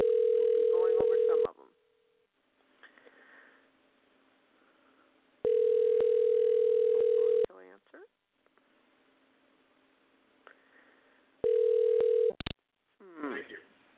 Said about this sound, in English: I'm going to be dialing my guest, and his name is Joseph Culp.